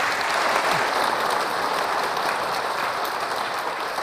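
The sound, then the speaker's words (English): An audience gives a warm round of applause to welcome two speakers to a talk. Dense, steady clapping holds at an even level for the full four seconds, with no voices standing out. “So, to start it all off, let's give them a great big hand and warm welcome, Dr. Dearborn and Mr. Scheffler.”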